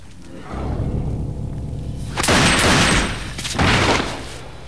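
Gunshots in an audio drama: two loud, crackling bursts of gunfire. The second burst is shorter than the first, and both rise over a low rumbling bed.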